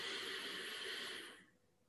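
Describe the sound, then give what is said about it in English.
A deep, slow breath taken during a guided relaxation: a soft, steady, airy rush that holds for over a second, then fades out. “And now take a deep, deep breath.”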